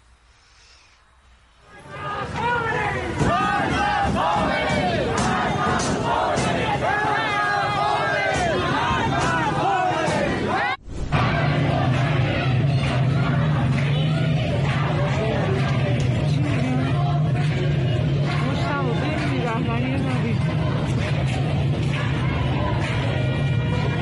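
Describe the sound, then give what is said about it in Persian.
Crowd of protesters at street demonstrations in Tehran, Iran, a dense, loud, continuous babble of many raised voices that drops out for an instant midway, then resumes at the same level. “همچنان هم در قسمت‌های مختلف از شهر تهران در سردشت و در شهرهای مختلف تظاهرات و تجمع‌های همین الان برقراره. بریم تازه‌ترین تصاویری که به دست ایران اینترنشنال رسیده و همکارانم آماده کردن ببینیم و برگردیم.”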